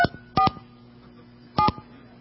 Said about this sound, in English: So I pick up this phone, and actually this is kind of wrong. I always hate dialing with words.